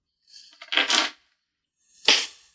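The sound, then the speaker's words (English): A four-sided die rolls across a tabletop during a tabletop role-playing game: a rattling clatter of several small knocks, a short silence, then a second brief sharp clatter. “Roll me a d4.”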